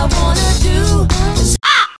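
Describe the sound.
A crow caws harshly, a few loud, raspy calls in a row. The last caw is short and set apart after a brief gap.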